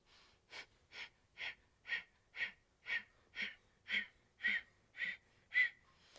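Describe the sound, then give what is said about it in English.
Rapid, forceful yoga breath-of-fire breathing during an arm-seesawing exercise: about eleven sharp, even exhalations, roughly two per second, loud and steady, with no talk. “seesaw up and down with breath of fire.”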